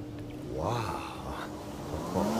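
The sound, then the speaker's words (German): A car drives up a driveway, its engine a moderate, steady rumble with a few shifts in pitch over about two and a half seconds. “Da kommt ein Auto die Auffahrt hoch.”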